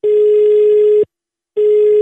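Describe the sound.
Telephone ringback tone on a listener call-in line to a regional radio station: a steady, loud, mid-pitched tone sounds for about a second, cuts to silence for half a second, then starts again. No talking.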